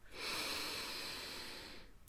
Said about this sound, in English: Breathe in and exhale out.